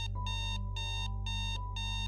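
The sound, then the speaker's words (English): An alarm clock on a nightstand goes off in four evenly spaced bursts of bright, buzzy electronic beeps, moderately quiet, over a low steady hum. “suddenly the alarm clock on the nightstand went off.”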